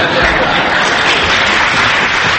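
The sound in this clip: Audience applause: dense, steady clapping from many hands that stays loud and even for the whole stretch, with no pauses or speech standing out.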